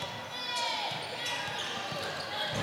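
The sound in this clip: A basketball is dribbled on a court during a Piedmont basketball game: a few dull, evenly spaced bounces beneath a steady wash of gym noise, with a voice talking over them.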